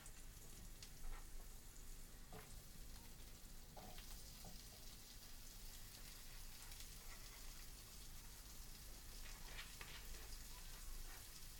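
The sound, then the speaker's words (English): Chopped pepper fries in a frying pan with a quiet, steady sizzle, broken by scattered small crackles and pops. “So I'm cutting up this pepper, and I'm going to throw it into the frying pan.”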